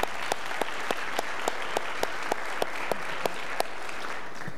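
A church audience applauds a newly married couple, a steady wash of clapping punctuated by regular, rhythmic sharp claps that keep an even beat across the stretch.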